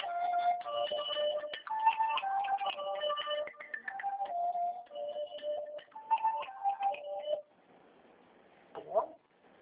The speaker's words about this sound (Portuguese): tem alguém ligando pra você